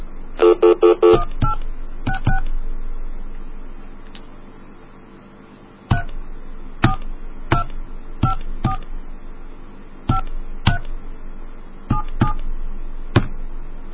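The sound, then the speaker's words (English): Touch-tone keypad tones as a telephone number is dialed: a rapid cluster of beeps at the start, then many single short, clear tones spaced irregularly, with no talk. “let's try that other number again with the second number”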